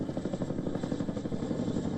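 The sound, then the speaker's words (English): Rhythmic rotor thumping from a Black Hawk military helicopter during emergency deployment drills: a steady, rapid, loud beat of low pulses with a constant engine whine above, no voices. “Black Hawk helicopters and Navy missile boats also held emergency deployment drills.”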